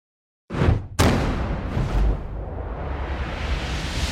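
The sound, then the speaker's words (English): The intro of the Tekken 8 video game trailer opens on silence, then a few booming cinematic hits land in quick succession before a sustained, rushing whoosh takes over. “of course, Analytic Dreams video on Spotify to see the video along with the audio, because we are about to get into the Tekken 8 trailer right now.”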